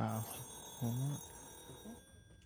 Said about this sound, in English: Ooh, so I've got a caller.